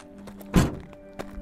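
A gate opens with one heavy, dull thunk, followed later by a fainter knock over a quiet background.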